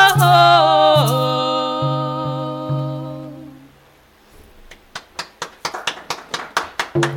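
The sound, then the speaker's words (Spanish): Studio audience at a radio station clapping after a sung song, a long sung note fading out first, then many sharp claps in a steady rhythm. “Todo el público acá en la radio aplaude.”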